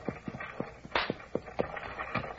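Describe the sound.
Horse hooves clopping on the ground as a team pulls a stagecoach, a quick run of many sharp, rhythmic thuds in an uneven gallop-like pattern.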